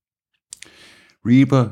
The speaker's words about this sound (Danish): så trykker man enter. Enter.